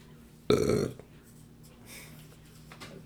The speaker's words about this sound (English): And stop burping.